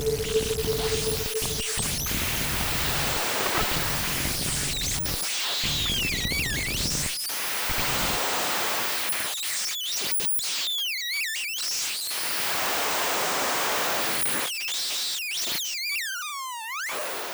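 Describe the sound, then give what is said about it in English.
Electronic synthesizer patched into a feedback loop of modulated waves, producing a long, shifting, unstable mass of noisy tones, warbling sweeps and chirping glides that swell and drop out abruptly, ending in rapid descending squeals; no voices. “And then you can feed that modulation back on itself and get really out there to the point where the electronics are in a feedback loop and they have a life of their own, and it sounds something like this.”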